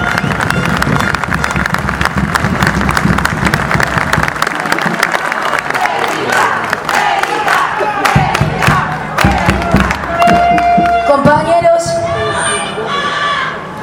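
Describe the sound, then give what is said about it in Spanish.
Crowd applause at a workers' union rally, many people clapping continuously with cheering, whoops and loud shouts mixed in for about fourteen seconds. “Erika Oliva, y que le vamos a dar un fuerte aplauso.”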